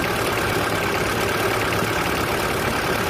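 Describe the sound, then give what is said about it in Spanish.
Car engine idling with its timing belt turning, a steady, dense mechanical hum that holds an even level throughout. “seguro por el ruido se nos va a escuchar bastante bajo, pero así es como debe funcionar la correa de distribución.”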